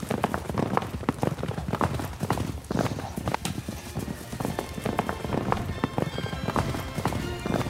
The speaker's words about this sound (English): By taking a roundabout route through the hills, the masked man and Tonto avoided riding through Tobacco Ridge in order to reach the western side of town.